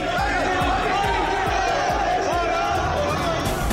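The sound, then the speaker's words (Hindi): Crowd of Indian community members in a hotel in Italy chanting "Modi Modi", a loud, continuous, rhythmic mass of voices repeating the chant at a brisk, regular beat. “Italy के hotel में लगे मोदी मोदी के नारे। प्रधानमंत्री मोदी की एक झलक पाने को उमड़े भारतीय समुदाय के लोग।”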